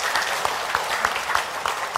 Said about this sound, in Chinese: 我们拍手好了哈